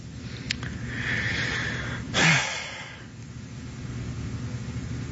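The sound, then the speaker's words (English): A deep breath drawn slowly with a soft rushing sound, then a short, stronger burst of breathy air, moderately loud over a steady low hum, with no talk. “Just taking a deep breath.”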